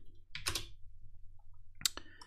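Faint key clicks as a search is typed on a computer keyboard, two short bursts of tapping separated by a pause.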